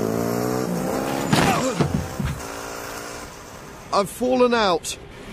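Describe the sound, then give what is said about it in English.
A car drives fast, its revving engine and squealing tones rising and falling in sweeping bursts, with a louder cluster of sharp sweeps toward the end. “Whoa, slow down. We're not going to get there any quicker by driving fast.”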